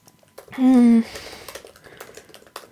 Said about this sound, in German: Ich muss mal kurz was schreiben. Ist auch mal schön, wenn ich nebenbei schreibe.